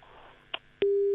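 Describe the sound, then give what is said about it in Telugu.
Busy signal on a telephone line after a call drops: a brief click, then a loud, steady single-pitch tone that starts abruptly and holds unbroken to the end. “Okay, so sorry call cut అయిపోయింది.”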